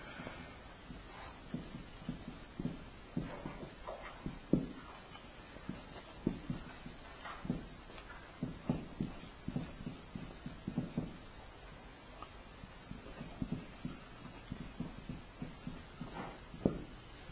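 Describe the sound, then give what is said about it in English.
Words are written down by hand as faint, scratchy pen strokes, many short, irregular scrapes and taps with small pauses between them and no talk over them. “So I'm going to have to use this and write some words down.”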